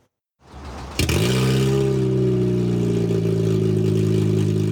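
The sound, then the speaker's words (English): A car engine with its catalytic converter stolen cranks briefly, then catches into a loud, deep, raspy roar that holds steady with a strong low rumble. “If your vehicle sounds like this when you start it, it's likely that your catalytic converter has been stolen.”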